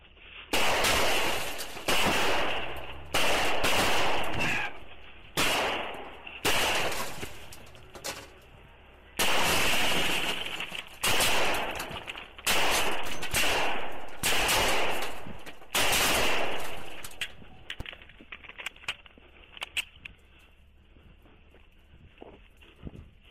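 Gunfire erupts as shots are fired, with many loud reports in heavy bursts across most of the stretch before thinning to quieter, scattered sounds.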